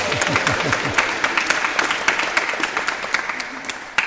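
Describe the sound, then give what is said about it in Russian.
Audience applause: a dense, steady patter of many hands clapping that runs for about four seconds, ending on one sharper clap. “Давайте похлопаем ее.”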